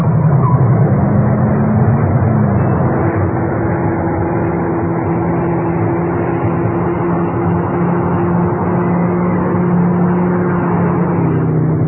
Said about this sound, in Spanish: Continuaba aquella persecución encarnizada. El extraño señor Smith conducía su auto a gran velocidad seguido de Calimán.